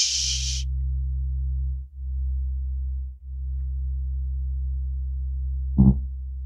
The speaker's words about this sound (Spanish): A ver, ¿otra vez el grave? Ajá. Escuchen.